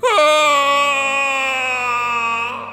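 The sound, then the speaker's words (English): A young man lets out an anguished wail of horror: one sustained, high, tense cry that holds a steady pitch for almost three seconds before stopping abruptly. “As Hera's spell wore off, horror bloomed in his eyes, and a wail burst from his mouth”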